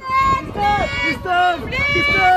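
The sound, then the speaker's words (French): Photographers shouting and calling out to film stars on the Cannes Film Festival red carpet, several overlapping raised voices forming a loud, continuous babble of competing calls. “on va se plonger dans l'ambiance cannoise avec les photographes qui appellent les stars pour essayer d'obtenir les plus belles photos. Écoutez, ça nous avait manqué.”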